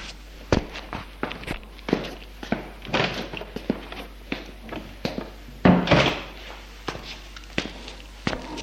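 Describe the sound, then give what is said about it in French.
Footsteps leave a bedroom and go down the stairs: many uneven treads and knocks, with one louder thud partway through. “Ils sont sortis de la chambre. Descendent les escaliers.”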